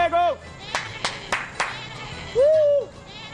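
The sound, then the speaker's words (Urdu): Goats kept to clear brush bleat twice, a wavering nasal call at the start and another near the end, with a few sharp knocks in between. “بکریوں کو وہاں رکھنا چاہیے جہاں آپ کو کچھ بچانا نہ ہو، کیونکہ بکریاں بغیر سوچے سمجھے بلا امتیاز تباہی مچاتی ہیں۔”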